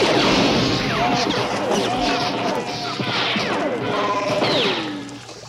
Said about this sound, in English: It's when Han shoots the walls in the trash compactor. Yeah. And it's just bouncing around.